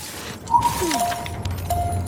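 A glass bottle smashes in a video game, a single sharp crash near the start followed by lingering tones over steady game ambience.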